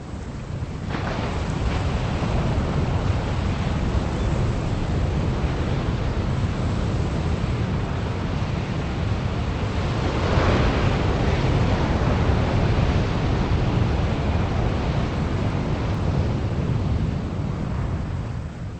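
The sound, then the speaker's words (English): Ocean surf and wind on a beach, picked up by a microphone set in the sand among tall grasses. A steady, full roar of wash and wind continues throughout, swelling a little around the middle, with no voices. “I went to Pamet Road Beach and recorded the sound of surf and wind. And in this particular instance, I placed the microphone actually off the tripod in the sand amidst some grasses, tall grasses.”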